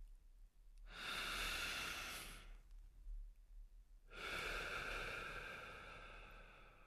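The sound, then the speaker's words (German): Two long, airy breaths drawn deeply through the mouth, each a soft hissing rush lasting a couple of seconds, separated by a quiet pause of about one and a half seconds, with no talk. “Tief einatmen und die Luft anhalten.”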